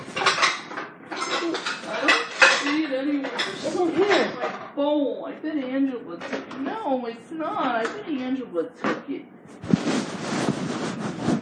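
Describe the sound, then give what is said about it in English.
Dishes and a cereal bowl clatter in a kitchen as they are handled. The clinks and knocks stay mostly under steady talking, with a busier burst of clatter near the end. “Here's my favorite cereal bowl. It's in the corner, Mom.”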